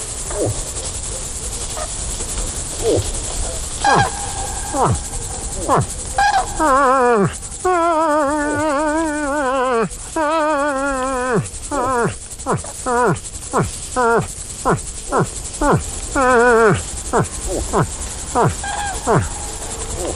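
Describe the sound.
A man imitates a moose call by mouth alone, with no horn or caller, producing many short grunting bursts and several longer, drawn-out, wavering moans in an uneven rhythm, loud throughout.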